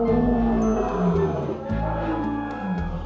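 A lion roars in deep, rumbling growls, loud and rough, swelling and easing in a few surges across the moment.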